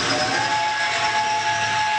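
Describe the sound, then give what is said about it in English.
A model steam engine on museum tracks gives a steady, loud steam hiss with thin whistle-like tones running through it; no distinct chugging beats stand out. “A model steam engine chugs along the tracks inside the Sydney and Lewisburg Railway Museum.”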